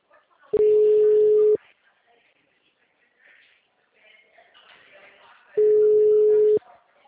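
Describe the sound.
Two long telephone call tones, each about a second, separated by a few seconds of quieter sound with faint voices, from a call that is forwarded to voicemail.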